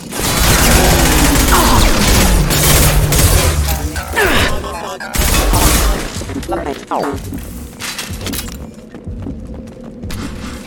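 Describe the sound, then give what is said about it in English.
A heavy gun fires in a shooter video game, giving loud, dense bursts of booming blasts and crashes that keep going with only short dips. “I'm just gonna switch to our big gun”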